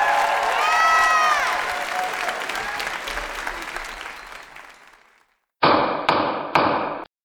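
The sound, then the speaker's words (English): Gavel banging: applause fades away to near silence, then three loud, sharp wooden strikes land in quick succession. “This is the sound of a gavel.”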